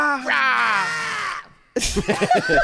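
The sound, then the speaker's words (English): A person screams angrily in one long, strained cry whose pitch slowly falls, then trails off before talking begins. “No, you gotta scream. He's angry.”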